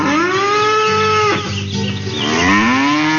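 A cow lets out a long, loud, low moo at morning milking time. The call is rich in harmonics, dips and roughens midway, then swells again with a rising tone. No talking.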